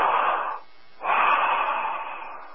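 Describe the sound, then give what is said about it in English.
Breathing with a steady rhythm: a short, breathy hiss, a brief silence, then a longer, even exhalation that slowly fades. The breath sounds are soft and airy, with no voices. “it's a marvelous sound. That's that energy of the cycle rhythm of the breath”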